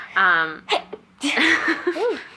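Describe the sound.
A single human sneeze: a brief voiced wind-up and then a sharp, noisy burst, after which a person starts talking.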